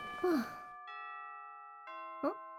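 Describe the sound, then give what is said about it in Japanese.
A school chime rings in two sustained, bell-like tones that linger and overlap. A voice sighs or groans at the start and again near the end over the fairly quiet ringing. “だってチャイム鳴ったし”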